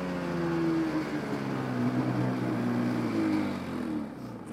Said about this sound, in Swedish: Då har vi åkt en bit med skoten in i skogen och ut nu på en myr.